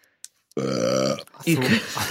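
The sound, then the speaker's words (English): A man's loud, drawn-out, voiced belch lasting over half a second, followed shortly by talking. “trying to deal with that belch in a sort of discreet way, and then he just didn't bother.”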